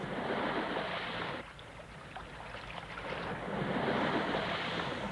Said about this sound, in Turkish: Bir tekne geliyor sahip.